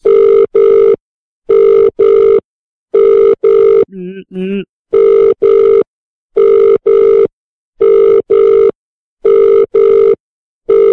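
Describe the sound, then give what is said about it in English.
A telephone rings in repeated double bursts, a steady loud ring-ring pattern at even intervals that continues throughout. “You got a phone call. Wipe your butt and you have a phone call.”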